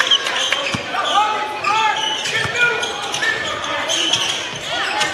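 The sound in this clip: Basketball dribbling on a court during a high school game. Bounces thud through a steady wash of crowd noise, and voices are present throughout.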